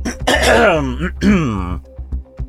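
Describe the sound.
Someone clears phlegm from their throat in two loud, rough voiced heaves that sound groaning and gravelly. A few faint clicks and soft sounds follow.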